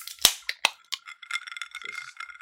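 Cans being cracked open: several sharp snapping pops in quick succession, the first the loudest, followed by a soft crackling fizz that trails on to the end.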